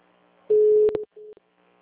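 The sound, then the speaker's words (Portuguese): Busy tone on a VoIP phone call, a steady mid-pitched beep sounding in two bursts: the first longer with clicks at its end, the second short. Quiet follows. “Eu tô ligando, liguei do meu chama, tô ligando do VoIP, tá dando como se estivesse ocupado.”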